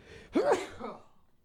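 A single human sneeze: a short voiced intake of breath bursts into a sharp, breathy blast that quickly trails off, heard alone.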